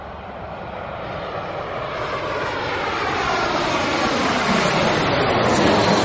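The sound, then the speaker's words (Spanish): Airplane engine roar: a broad, steady drone that builds gradually in loudness over several seconds, with no voices. “Es un avión.”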